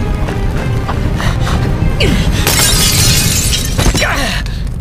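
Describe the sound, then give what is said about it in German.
Window glass shatters as someone jumps through it: a loud, bright crash of breaking panes bursts out mid-clip over a busy, noisy background, with scattered smaller impacts and tinkling debris before and after. “Ich glaube, meine einzige Chance ist es, durch das Fenster zu springen.”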